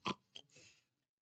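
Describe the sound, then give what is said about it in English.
A voice imitates pigs grunting, as the pigs in the stable at Jesus's birth might have: a few short, rough, snorting bursts in quick succession, fairly soft and heard alone. “these are the animals that would have been in the stable with Jesus when he was born. Can you imagine your little baby and the pigs going,”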